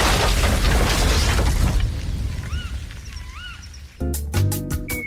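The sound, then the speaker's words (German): Heavy rumbling blast of an asteroid impact in an Italian TV commercial for Buon di Morta snacks, loud and broad before it decays, followed by a few whistling tones and then music. “Und dann trifft die Mutter eben so einen Himmelskörper. Es ist ein Werbespot für den Buon di Morta”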